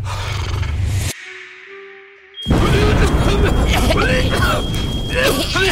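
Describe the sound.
A sudden loud roaring burst of flame erupts from a flambé dish made with extra liquor that goes wrong, swelling into a sustained whoosh after a quieter stretch, with voices talking over it.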